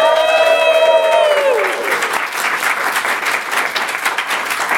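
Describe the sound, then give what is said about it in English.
A live studio audience applauds and cheers. A loud whooping voice rings over the first second and a half, then dense clapping carries on, slightly quieter, to the end. “that amazingly enthusiastic sound you just heard is our live studio audience”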